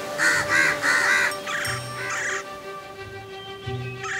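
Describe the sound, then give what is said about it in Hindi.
Crows caw in a series of harsh, loud calls, a few rapid ones at first and then more spaced out, as they gather at a nest. A faint tinkling sits underneath, and no one speaks. “Mister काउनिंग ने mister काऊ को देखा और बाकी सब कौओं को बुलाया और जल्द ही वो सब मिस्टर काऊ के घोंसले में इकट्ठे हो गए।”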